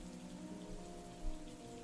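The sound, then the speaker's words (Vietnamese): Steady rain falling outside, a soft continuous patter and hiss with one brief louder swell near the end, no voices. “Ngoài trời mưa vẫn rơi, gió lạnh buốt thổi làm cánh cửa sổ mục nát kêu lên từng hồi.”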